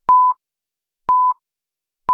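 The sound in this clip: Radio Someș's exact-time signal marks 21:00 with three short, identical mid-pitched electronic beeps, spaced evenly about a second apart, separated by silence.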